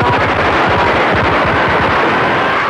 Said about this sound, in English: There is a machine gun trained on the producer's head.